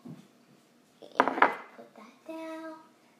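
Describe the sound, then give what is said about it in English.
A bowl is taken out while preparing a simple date snack in a kitchen, producing a brief clatter and knock of dishes that lasts about half a second. The sound is fairly faint. “I'm also going to open this up, and I am going to take out a bowl.”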